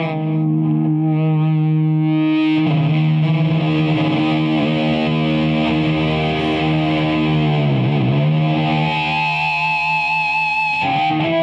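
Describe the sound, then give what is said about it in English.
Guitar feedback set off by flicking an effects pedal switch: a loud, sustained, distorted tone rich in harmonics that holds steady, wavers and dips briefly in pitch near the end, then swells again, alone. “That's the magical feedback that we always dream about getting when we're standing in front of our amp, and then you can just get it in a flick of a switch.”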